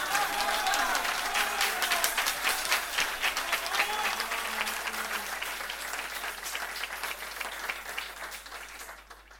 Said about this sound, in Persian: هر کی با من هم عقیده است کف بزنه